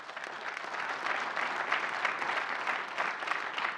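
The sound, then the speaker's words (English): Applause from an audience at a church service welcoming guests into the building, a steady, dense clapping that continues without pause throughout and stays fairly soft. “So would you make some noise for Mike and Annika Mislinski as they come?”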